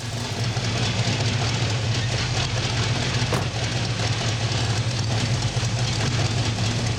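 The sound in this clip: A car engine idles low at about 625 rpm during an ignition timing check with the vacuum port blocked off, a steady, unbroken rumble with no voices over it.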